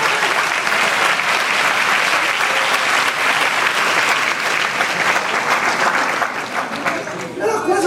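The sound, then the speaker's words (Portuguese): Dense applause from a church audience, loud and steady throughout with no break, thinning slightly near the end. “aplaude ela junto com a irmã lá”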